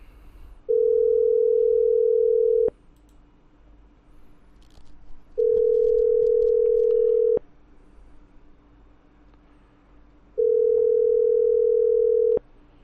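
Long telephone line tones repeat while a call is placed. Three steady mid-pitched beeps of about two seconds each are separated by longer pauses, over a low, constant background hum.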